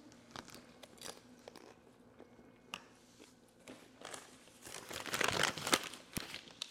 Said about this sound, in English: Real talk, I think that sauce makes everything taste good. Cause um, I just ate some lettuce.